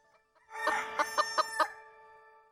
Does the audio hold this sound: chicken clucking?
yes

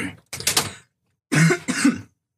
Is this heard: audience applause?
no

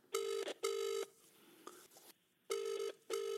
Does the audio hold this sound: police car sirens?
no

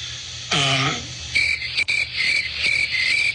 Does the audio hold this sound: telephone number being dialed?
no

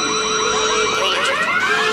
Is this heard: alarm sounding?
yes

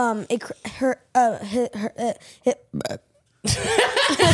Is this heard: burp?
yes

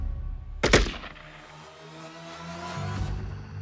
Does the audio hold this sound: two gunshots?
yes

